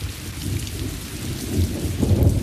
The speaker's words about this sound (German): Regen fällt. Sanft.